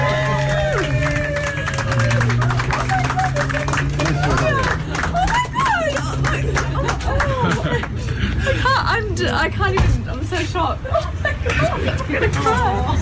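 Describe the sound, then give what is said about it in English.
An audience claps and cheers at a surprise gathering in a picture theatre. Loud babble, chatter and laughter run through it. “Let's hear it for Jamie, guys.”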